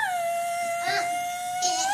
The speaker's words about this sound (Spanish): Es parte de las familias de perros, o sea, como igual no mi perro, pero es más grande. Y es un lobo mexicano.